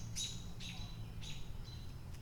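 Birds chirping in trees: a few short, high, thin chirps with gaps between them, faint over a low steady rumble.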